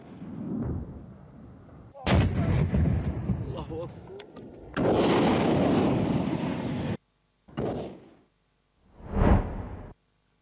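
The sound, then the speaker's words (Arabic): Artillery shelling by Yemeni government forces on Houthi positions on the southern Marib fronts: several heavy booming blasts with rumbling tails, separated by short gaps, the last ones set apart by near silence. “إلى تطورات في اليمن، حيث نشر المركز الإعلامي للقوات المسلحة اليمنية مشاهد لما قال إنها قصف مدفعي نفذته القوات الحكومية على مواقع وتجمعات للحوثيين في جبهات مأرب الجنوبية.”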